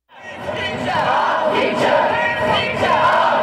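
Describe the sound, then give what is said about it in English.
Crowd of UK school students who walked out of class chanting at a climate change protest march against government inaction. A loud, dense roar of voices swells in quickly and holds steady. “That was the sound of students in the UK who on Friday walked out of schools to march against the government's inaction towards climate change.”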